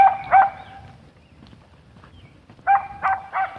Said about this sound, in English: The dog is taking great exception to me. It's a little,